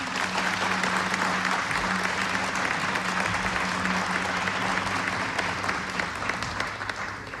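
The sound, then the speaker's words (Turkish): Dense, steady audience applause greets the choir and its conductor at a Turkish folk music concert, sustained evenly for about seven seconds before easing slightly at the end. “Koromuzu ve Şef Mehmet Erenleri gönül dolusu alkışlıyoruz efendim.”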